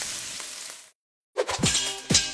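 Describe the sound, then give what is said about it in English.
Spam frying in a pan, a bright crackling sizzle that drops out briefly, then returns with sharp pops and spattering bursts, with no talk over it. “Oh, hear that? That's the Spam brand singing you a love song. Spam. Sizzle, pork, and mmm.”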